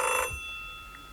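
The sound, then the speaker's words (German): Telephone ringing, a single short bright electronic ring tone with steady high harmonics that cuts off quickly, followed by a faint ringing tail. “Telefon. Ja, ich gehe nicht ran.”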